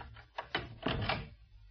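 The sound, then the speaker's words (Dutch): A door being shut as someone goes inside: a few soft knocks, then a fuller thump with a brief rattle. All of it is faint, with no talk. “gaat naar binnen en doet de deur dicht”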